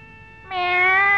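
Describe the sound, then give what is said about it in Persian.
A cat meowing: one long, drawn-out meow, steady in pitch, that swells louder after a softer start and holds to the end. “میاو میاو منگارو میاو. حسن تا گربه رو دید دوید رفت به طرفش”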